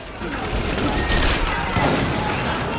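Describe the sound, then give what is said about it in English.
Gunfire rages in a full-scale gun battle inside a laundry: a loud, dense, unbroken barrage of noise with no clearly separate shots, holding steady throughout. “A full-scale gun battle erupts across the laundry.”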